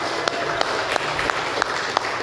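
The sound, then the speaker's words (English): Church audience applause during a baptism service: a dense, steady wash of clapping with sharper individual claps cutting through at a fairly regular beat. “Everybody give her another round of applause.”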